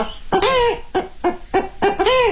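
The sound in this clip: A performer uses circular breathing to imitate an old hen, voicing a rhythmic series of loud, nasal clucks with rising and falling squawks and brief gaps between them.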